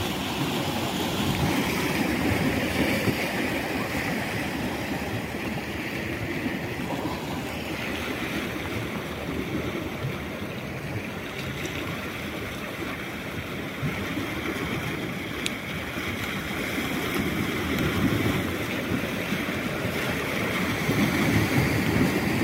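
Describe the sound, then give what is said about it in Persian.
Sea waves washing over shore stones, a continuous rushing wash with rising and falling surges and gritty churning as water pulls through the rocks, steady and moderately loud with no talk. “ترجیح میدم که باز اینجا سکوت کنم و شما گوش بدید به صدای آب، دریا و موج و این سنگ هایی که اینجا هستش.”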